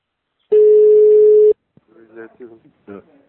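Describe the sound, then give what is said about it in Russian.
Telephone ringing tone while a call is redialed: one loud, steady, mid-pitched tone lasting about a second, then silence before a voice starts talking on the line. “Сейчас еще раз набираю его.”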